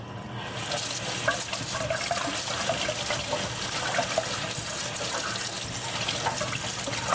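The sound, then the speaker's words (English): Water runs steadily from a small sink tap, set up for washing hair, a continuous, even rushing splash that holds at the same loudness throughout with no voices. “Make sure the sink is clean, first of all, which it appears to be. And that would be a good thing since I actually did clean it last night. And can I get all of my hair under this puny little tap?”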